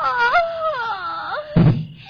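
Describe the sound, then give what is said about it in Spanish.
Someone cries in a long, wavering wail whose pitch slides up and down, ending with a short, louder burst of sound. “¿Qué es ese ruido? Parece que alguien llora.”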